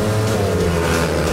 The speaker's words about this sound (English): Hear that? That's the sound of Fast Friday's Motorcycle Speedway Racing.